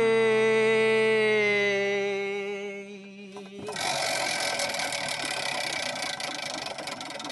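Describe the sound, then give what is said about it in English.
A prize wheel spins with a rapid, continuous run of ratcheting clicks. Before the clicking starts, a sustained harmonic tone holds and then fades out. “now to engage the Pop Oracle on your behalf, I'm going to spin the Wheel of Eight.”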